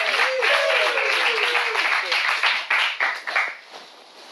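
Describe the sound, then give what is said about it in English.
Applause from a group at an improv class, a dense patter of clapping with a voice talking over it early on, then breaking into scattered claps and fading out near the end. “let's give him some love and applause.”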